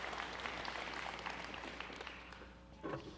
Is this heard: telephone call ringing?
no